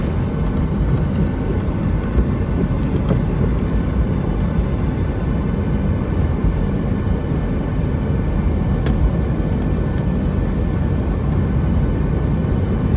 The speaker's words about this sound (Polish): Na pas i się rozpędzamy. Mamy już 120 prędkość autostradowa.